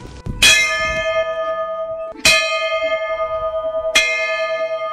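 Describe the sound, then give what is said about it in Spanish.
An old railway station bell at Guaqui's abandoned central station, once rung for train arrivals and departures: three loud metallic strikes about two seconds apart, each followed by a long, pulsing ring that fades slowly. “esta campana sonaba así para anunciar la llegada y la salida del tren en aquellos años.”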